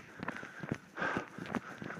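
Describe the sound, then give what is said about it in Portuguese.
Footsteps of a person running at an easy pace, a steady rhythm of soft, faint footfalls repeating evenly. “Aí agora eu vou. Eu vou correr. É. Agora a corridinha solta.”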